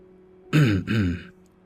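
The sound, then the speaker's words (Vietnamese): A soft throat clearing sounds from behind a woman in a tall building, made by a grey-haired middle-aged man: one brief, low voiced rasp in two quick parts, then quiet. “Một tiếng hắng giọng khẽ vang lên từ phía sau.”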